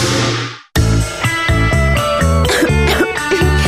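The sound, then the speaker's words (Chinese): A harsh, phlegmy cough or throat-clearing, as if someone cannot bring up stuck phlegm, fills the opening moment, then cuts off abruptly into a loud, rhythmic music jingle. “都好似有啖痰咳唔出咁”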